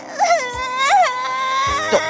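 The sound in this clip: A girl cries in high, wavering sobs: a few loud, bending wails rise and fall over a steady whimpering tone, with no other sound around them.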